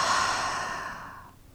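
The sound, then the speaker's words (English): A slow, deep breath comes as a soft, airy rush of air, heard alone. It fades steadily to quiet over about a second and a half. “take one last deep breath with us, breathing in and breathing out.”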